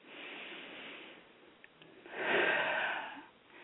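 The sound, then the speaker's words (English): Deep breathing taken slowly as a calming exercise against stress, heard as two long, airy rushes of breath with no talking, the second swelling louder and fuller than the first before fading away. “So let's just do a couple of deep breaths.”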